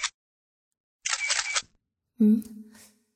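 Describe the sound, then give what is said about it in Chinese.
A mobile phone camera takes a photo with two short, bright shutter bursts, the second longer, followed by a brief voice. “好像是拍照的声音。儿子蹲在地上捡蒜瓣，怎么还用手机拍照啊？”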